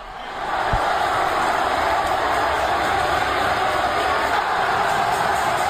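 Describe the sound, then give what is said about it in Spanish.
Sports crowd roaring at the Roche Arena: the roar swells in during the first half second, then holds as a loud, dense, unbroken wall of noise to the end. “Sonido del Roche Arena, así sonaba y así rugía al público.”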